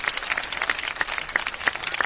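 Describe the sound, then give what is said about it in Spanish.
Audience applause, a steady and dense rattle of many hands clapping at an even level throughout. “Le vamos a dar un fuerte aplauso a don Jesús”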